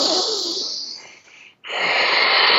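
A deep breath drawn into the body: two long, airy, loud breath sounds separated by a brief silent pause, with no talking.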